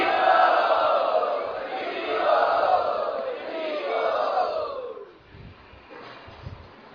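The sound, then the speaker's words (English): A crowd loudly chanting 'Hari' in unison to welcome guests at a Vaishnava gathering, with drawn-out, wavering voices for about five seconds before dropping to a quieter murmur. “Let us welcome them by loudly chanting Hari.”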